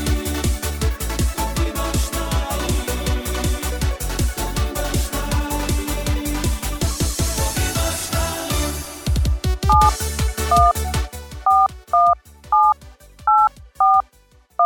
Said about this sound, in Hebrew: אנחנו מנסים לחייג לאיראן.